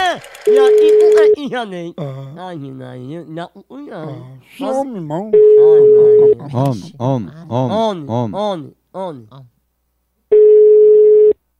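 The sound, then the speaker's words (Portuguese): Three steady, single-pitch telephone ring tones for a call, each lasting about a second, repeat at even intervals several seconds apart. Voices talk loudly in the gaps between them. “Tá ligando pra mim?”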